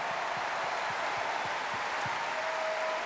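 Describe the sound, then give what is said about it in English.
An audience applauds an orchestra at a concert, producing steady, continuous, dense clapping that stays fairly faint and even throughout without rising or fading. “Please give them a huge classic round of applause.”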